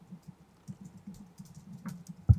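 Rapid keyboard typing as someone searches for a Berserk Dragon Slayer body pillow: many irregular, crisp key clicks close together, ending in one louder thump as a key is struck hard.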